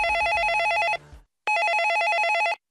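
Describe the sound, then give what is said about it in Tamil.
A telephone rings at a police station at night: two rapid, trilling bell-like bursts, each about a second long, separated by a short gap, loud and alone with no voices. “ஸ்டேஷன்ல இருந்து கிளம்புறப்ப ஒரு phone call வந்துச்சு.”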